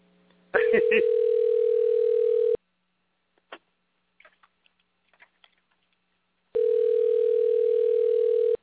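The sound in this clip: Ringback tone of an unanswered call to a flip phone: two long, steady buzzing tone bursts separated by a silent gap with a few faint clicks.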